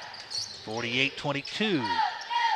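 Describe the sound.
A basketball dribbled out front by a player during a basketball game, its bounces heard under a man's steady play-by-play commentary.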